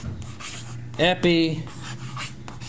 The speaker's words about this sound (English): I'll just write it in English.